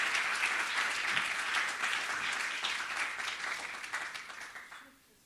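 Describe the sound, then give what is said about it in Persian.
Audience applause during a Christian sermon, dense steady clapping that holds loud for most of the stretch and then fades out quickly at the end. “برای خودتون که اینقدر شجاع هستین برای من دست بزنید.”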